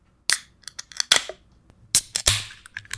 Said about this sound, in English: there's a random guy banging and screwing on my deck, so any weird noises you hear, that's probably it.